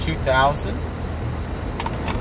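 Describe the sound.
Steady low rumble of a car being driven, heard from inside the cabin, with a brief voice near the start and a few light clicks over the constant hum.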